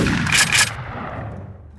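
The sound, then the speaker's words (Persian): Gunshot fired at a car during a shooting: a couple of sharp, loud blasts close together, followed by a rumbling decay that fades over the next second. “تیر چهارم شلیک میشه، به پشت کندی برخورد میکنه”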